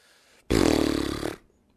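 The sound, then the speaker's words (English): A single long, loud, rattling snore from a fat dog asleep, a rough pulsing rumble of about a second that starts abruptly and fades out, with nothing else heard. “This dog is fat, needs lots of attention. That's what's going on. Mm-hmm. He's asleep, not 3-4 feet from me, snoring away.”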